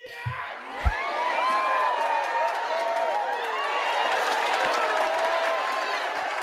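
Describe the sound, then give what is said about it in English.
A studio audience cheering sound effect, a sustained crowd roar with whoops and shouts, opening with a brief thump. “Our live studio audience is great.”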